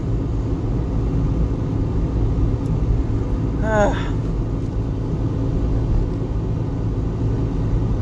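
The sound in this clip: A car being driven makes a steady, low engine and road rumble that holds constant throughout, with a brief voice heard over it.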